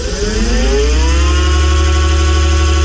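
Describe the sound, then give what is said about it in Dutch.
The motor of a souped-up mobility scooter hums loud and buzzy, its pitch climbing briefly at the start before holding a steady drone to the end, with no voices. “dan zitten zij in een opgevoerde scootmobiel. Weet je, dat ding gaat dan ook ineens 45 km per uur, hè?”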